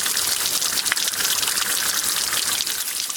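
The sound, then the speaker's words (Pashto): Fresh spring water flows along a narrow roadside stream, giving a steady, dense rushing hiss with fine bubbling texture that stays even throughout, with no voices. “که څه هم د سړک پر غاړه په یوه نری ویاله کې تازه ورنې اوبه بهیږي”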